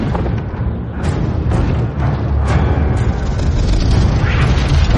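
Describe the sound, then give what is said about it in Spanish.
A dragon breathing blue fire and knocking down part of a castle wall during a battle: a loud, unbroken roaring rush with several sharp booming bursts scattered through it. “Escupe fuego azul derribando parte de la muralla.”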